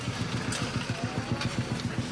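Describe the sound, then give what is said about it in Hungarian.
An old diesel tractor engine chugs with a steady, rapid low thumping rhythm and a rattling clatter, running evenly at moderate loudness throughout. “A 70-es években minden gazdaságban ismerték a dízelmotor indításának ezt a módját.”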